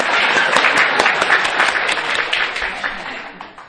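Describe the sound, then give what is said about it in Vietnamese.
Audience applause: dense, steady clapping from many hands that holds evenly, then thins and fades out near the end. “Vỗ tay.”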